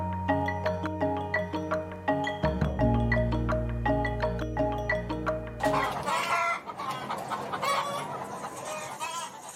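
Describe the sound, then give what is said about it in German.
Laying hens cluck in a henhouse on an organic egg farm, a dense chorus of many overlapping clucks and squawks that grows busier and noisier toward the end. “Ja, die lebt noch. In Deutschland gibt es ca. 43 Millionen Legehennen, die im Jahr an die 13 Milliarden Eier legen.”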